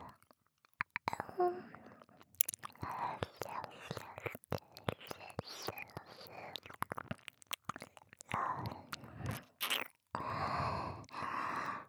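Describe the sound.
Wet licking on a listener's ear, close and intimate, with many irregular soft smacks, slurps and clicks of tongue and lips, and a whispered voice in places.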